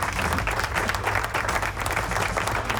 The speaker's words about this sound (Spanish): De verdad, aquí aplauso a todos ustedes.